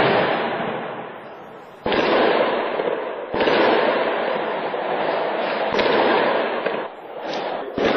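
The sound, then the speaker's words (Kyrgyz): Gunfire and explosions ring out during a pre-dawn police raid on terror suspects: dense, loud crackling noise runs throughout, broken by a few sharp bangs, with no talk. “Рейдтин жүрүшү ок атышуулар жана жардуурлар менен коштолду.”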